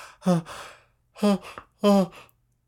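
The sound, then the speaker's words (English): A voice acts out a sleepy yawn as three sighing, voiced bursts, each trailing off into a breathy exhale, with short silences between them. “when she let out a great yawn and felt her eyes falling closed.”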